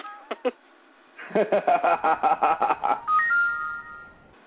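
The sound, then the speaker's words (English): An iPod chimes with an electronic alert for an incoming Yahoo spam message: two quick blips, then a fast run of about a dozen bright, evenly spaced beeps, ending in a held tone that fades out. “Oh, the hell was that? That was my phone, that was my iPod. Now I got a message on Yahoo for spam.”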